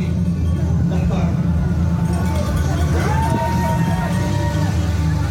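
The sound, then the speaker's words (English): Crowd and traffic noise from a graduation car parade of high school seniors riding through the neighborhood around their campus in Petaluma, a steady dense hubbub of voices and vehicles throughout. “This is the sound of graduating seniors from Casa Grande riding through the neighborhood around their campus.”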